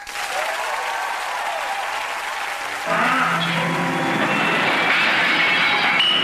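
Steady applause from an audience welcoming a country-rock singer, growing denser and slightly louder after about three seconds and holding there to the end.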